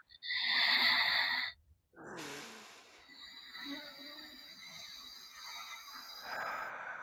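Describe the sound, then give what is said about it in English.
Slow breathing exercise: one loud, airy inhale of about a second, a brief pause, then a longer, softer exhale that drifts on with gentle rises in breathy noise. “So this is how you're going to breathe. You're going to go. Remember I said the exhale is going to be slower. So it's inhale.”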